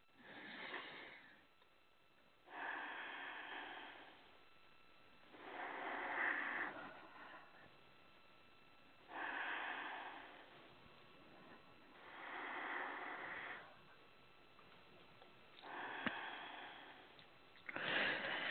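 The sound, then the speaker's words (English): Slow, deep breathing during a guided healing session: about seven loud, airy breath sounds with short quiet gaps between them, each swelling and fading in an even rhythm. “And 3 nice deep breaths.”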